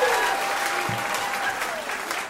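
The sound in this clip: Audience applause at a country music show, dense, loud, steady clapping from a large crowd that continues without a break and cuts off abruptly at the end.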